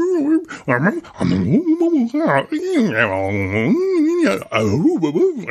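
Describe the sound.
A female dog makes talk-like whimpering noises as she eagerly tries to join in with her people. Her continuous warbling whines and yips glide up and down in pitch like mock speech.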